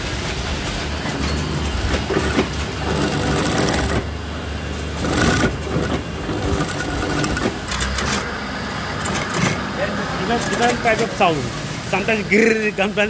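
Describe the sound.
Sewing machine attaching velcro fastening strips to trousers in a clothing workshop: a dense, steady mechanical rattling and whirring that runs throughout, with a few louder surges and likely talk mixed in.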